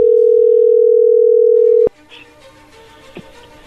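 A telephone dial tone opens an outgoing call, humming loud and steady for about two seconds before cutting off abruptly. Faint background noise with a couple of soft clicks follows.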